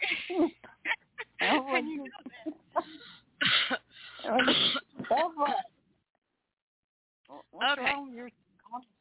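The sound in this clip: Repeated throat clearing, blamed on moisture gathering at the top of the lungs, comes in rough bursts mixed with people talking and a short silent gap.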